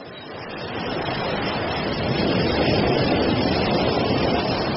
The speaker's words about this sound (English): But the tide's coming in fast!